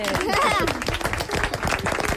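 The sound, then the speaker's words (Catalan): Clapping from an audience of mothers after a children's sled-song performance: a run of quick, uneven hand claps, with people talking throughout. “Molt aplaudiment,”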